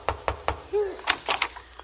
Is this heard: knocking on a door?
yes